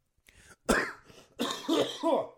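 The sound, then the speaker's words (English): Phlegmy coughing and throat clearing: a few rough, wet bursts, one forceful hack followed by several raspy clearing sounds, with no spoken words. “Sorry, I got some phlegm”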